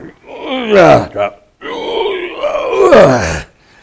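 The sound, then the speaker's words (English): A voice imitates groaning with two drawn-out, loud groans that waver in pitch. The first is shorter and ends with a brief catch, and a short pause separates it from the longer second groan. “Do you just sit there and just kind of groan and”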